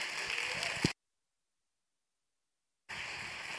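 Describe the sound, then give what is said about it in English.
A church audience applauds to welcome a guest speaker, a dense wash of clapping that stops into a gap of silence and then resumes. “So if you would, put your hands together.”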